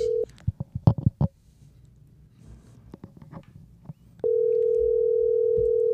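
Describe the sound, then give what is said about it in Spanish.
A telephone dial tone sounds while a call is placed: a short burst of steady tone, then a run of uneven clicks and taps, then the continuous tone returns and holds to the end, with no voices. “Vamos este, a hacer una llamada al invitado de hoy que es Luis Alejandro”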